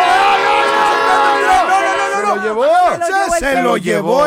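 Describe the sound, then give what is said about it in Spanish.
A train passes with its horn blaring loudly and steadily, a rich harmonic blast whose tones bend and slide downward in the second half, over a rumbling rail noise. “¡Cuidado! ¡El tren!”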